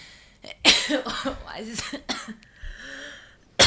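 A nervous woman coughs and clears her throat before singing, with sharp bursts at the start and at the very end and rough voiced throat sounds in between.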